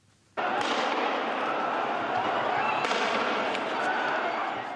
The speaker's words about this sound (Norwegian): Politiet skyter pistoler med tåregass for å spre demonstrantene i Tunis.